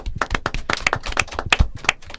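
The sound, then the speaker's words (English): Applause from a small group of people clapping, heard as a brisk, uneven patter of sharp, overlapping hand claps that stays moderately loud and fairly steady throughout, with no talking. “A round of applause for Mabel.”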